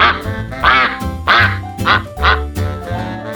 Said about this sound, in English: Duck.